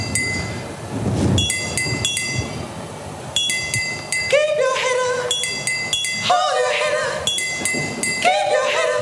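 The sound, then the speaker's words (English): Milk bottles played with sticks: bright, glassy clinks struck in a repeating rhythmic pattern, their ringing tones overlapping in loose clusters. “So this next bit's me and Annie playing milk bottles with sticks.”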